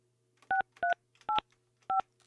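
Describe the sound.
Telephone keypad tones from a handset being dialed: four short, crisp beeps at uneven intervals, each a two-note chord, played quietly over a faint low hum.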